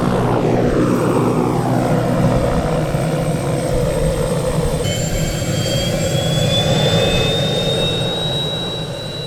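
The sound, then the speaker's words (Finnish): Loud aircraft engine roar from a skydiving plane leased from Latvia, at the Vesivehmaa grass airfield near Lahti. The broad, steady drone runs throughout, with high whining tones that grow stronger partway through and hold to the end. “Kone on vuokrattu Latviasta Hämeen laskuvarjourheilijoiden käyttöön tämän kesän ajaksi ja tämän koneen sijoituspaikka pysyvää paikkaa täällä Vesivehmaan lentokentällä.”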